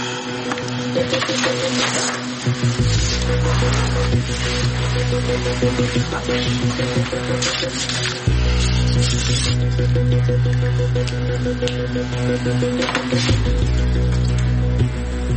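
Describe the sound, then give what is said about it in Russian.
A printer at a workplace runs continuously with a steady mechanical whirring over a low drone, broken by faint ticking and rattling bursts. “Так, тут мне нужен этот принтер.”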